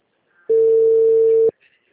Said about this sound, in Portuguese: E não é que tá chamando, amiga?